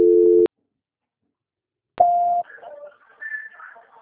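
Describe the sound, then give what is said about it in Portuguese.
A telephone busy signal on an office extension line: two short, steady tone bursts separated by a pause, the second higher in pitch, followed by faint, garbled sounds. “Só mais um momentinho que o Ramal está ocupado. Alô? Só um momentinho que está dando ocupado.”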